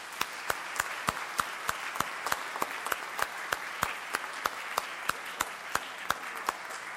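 An audience applauds to welcome a family of parents and their daughter. One sharp, regular clapper keeps a steady beat of about two claps per second over softer, diffuse applause that continues throughout.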